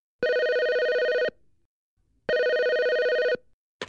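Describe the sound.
A telephone rings twice at a company office, each electronic ring a steady, bright buzzing tone of just over a second, separated by about a second of silence, with no talk.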